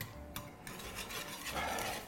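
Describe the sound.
A spoon stirs cornstarch into milk in a bowl, giving a steady scraping and swirling against the bowl that runs the whole time with no voices.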